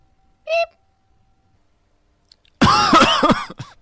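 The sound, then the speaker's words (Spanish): A short, harsh coughing fit of about a second bursts out loud and rough after a brief high tone and a pause of near silence. “Se me da la tos.”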